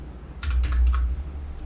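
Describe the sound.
Card details are typed on a computer keyboard to buy a domain, a short burst of several quick key clicks over a steady low rumble, with no talk.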